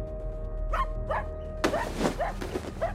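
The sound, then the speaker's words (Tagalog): A dog barks repeatedly: two spaced barks, then a quicker, slightly louder run of several more, all fairly faint over a low steady hum. “At ka ba tahol ng tahol dyan? Pwede ba tumahimik nga muna?”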